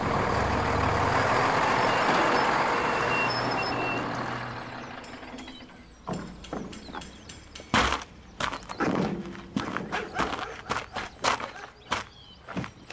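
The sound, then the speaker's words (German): A truck's engine rumbles as it arrives, loud and steady for about four seconds before dropping away. Many sharp mechanical clicks and knocks follow in an uneven series. “Da kommt auch schon der Lastwagen.”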